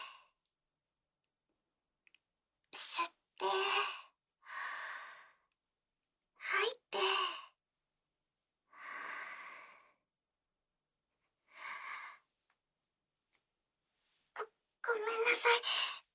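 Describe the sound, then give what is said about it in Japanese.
Slow, deep breathing in and out, done on request: many soft, airy breath bursts, some with a sighing quality, separated by silent pauses and ending in a longer, louder exhale. “まずは、ゆっくりと、呼吸をお願いできますか？吸って、吐いて、”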